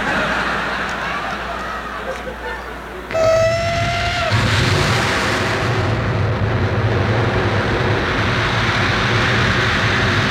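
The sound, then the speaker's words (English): A small airplane's engine starts up: a sudden whine cuts in about three seconds in and briefly holds a high tone, then settles into a loud, steady, rumbling drone that continues to the end. “Well, he got it started, thank God. He taxis out to the end of the runway and he blasts off.”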